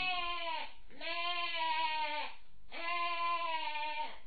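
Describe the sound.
A goat bleating alone: three drawn-out, wavering, nasal bleats in a row with brief gaps between them.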